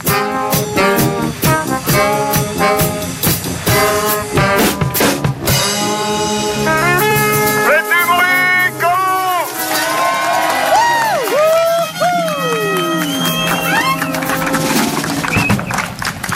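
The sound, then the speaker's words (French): A brass band plays a loud fanfare finale live on a morning radio show aboard a bus, sustained horn tones giving way to whoops and cheering voices over continuous music. “Et qui se sont dit, mais putain, c'est quoi cette fanfare de 10 minutes là sur la radio?”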